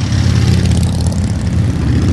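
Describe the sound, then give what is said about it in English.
Thousands of motorcycles riding together in a Memorial Day parade from the Pentagon to the National Mall in Washington, D.C., merge into a loud, continuous low engine roar that stays steady throughout. “that's the sound of a Memorial Day weekend tradition here in Washington, D.C. Thousands on their bikes for the 24th annual Rolling Thunder Ride from the Pentagon to the National Mall.”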